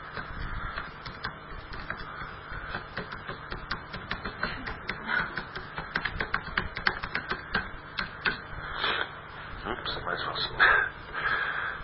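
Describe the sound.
Keys clatter on a computer keyboard while a Wikipedia page is being edited: many rapid, irregular clicks in bursts, growing busier partway through, with a voice talking underneath.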